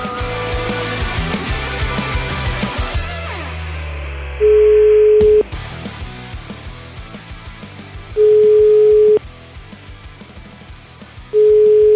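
Telephone tones sound while a call is placed, following a stretch of music that fades out: three long, steady mid-pitched beeps, each about a second, separated by even pauses.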